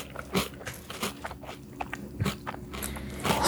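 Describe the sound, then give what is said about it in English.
Crisp crunching and biting of crunchy Reese's Puffs cereal being chewed, a series of sharp, irregular crackly bites and grinding crunches at moderate loudness, with no voices. “I forgot how delicious Reese's Puffs are. It's been a minute since I had them.”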